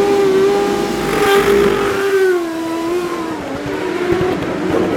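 A race car engine runs loud and continuous on a street course. Its pitch drops and then climbs again as the driver works the throttle, with no voices over it.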